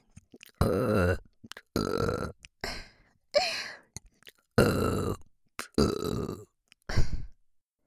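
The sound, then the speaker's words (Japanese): Repeated burping: a series of several long, loud belches separated by short silences, with a few small gulps and croaks between them and no other sound. “連続ゲップの方が好きなんですね。”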